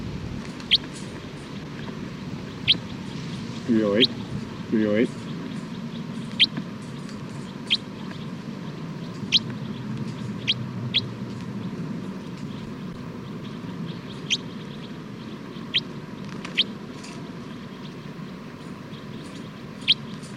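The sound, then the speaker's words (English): Brief, faint high chirps come from a numbered bird in a recording session. They are scattered every second or two over a steady low hum, with a couple of slightly fuller bursts early on. “Recording bird 308.”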